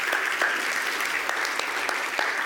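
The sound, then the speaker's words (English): Audience applause for a church praise band and orchestra, dense and steady clapping that carries evenly throughout at moderate volume. “maybe we just need to pause and just give them a round of applause and thank”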